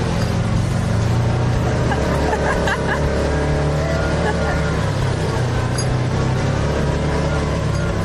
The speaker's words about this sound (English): This is the ultimate four-wheel driving. Oh, yes, we are going up this. Here we go.